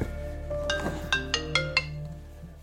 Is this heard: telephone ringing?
yes

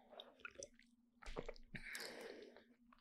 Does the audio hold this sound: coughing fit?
no

